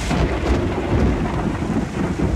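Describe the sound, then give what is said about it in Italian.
Heavy pouring rain on a June winter day in Australia, a loud, dense and steady wash of noise with no breaks. “Il giorno della visita ufficiale del re piove a dirotto.”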